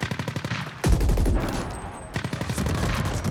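Turret gunfire in a video game, a fast, regular stream of rapid shots, with a heavier low boom breaking in partway through before the rapid firing carries on.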